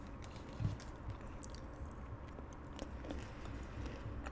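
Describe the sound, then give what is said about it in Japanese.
Crunchy chewing of food, with a steady run of soft bites and mouth noises that stay faint throughout. “ちょっととりあえず食べる。”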